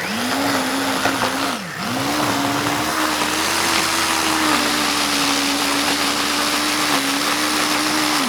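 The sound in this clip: A blender mixes garlic, onion and parsley, its motor a loud, steady whine that dips briefly once, then runs on evenly without voices.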